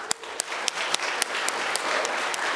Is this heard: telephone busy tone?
no